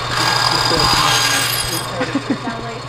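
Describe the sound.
A machine cutting wood scraps gives a steady, loud buzzing whine for under two seconds, then eases into a few light knocks and clinks.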